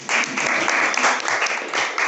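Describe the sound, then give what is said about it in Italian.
Loud, continuous audience applause of many hands clapping together, holding steady for the full length with small surges and no voices on top. “Grazie mille. Un applauso.”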